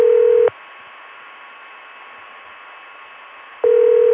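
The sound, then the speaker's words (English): Telephone ringing tone from Richmond: a short, steady ring burst, then a long stretch of faint line hiss, then the ring tone starting again. The rings are loud and the hiss between them is quiet. “And here's the ring from Richmond.”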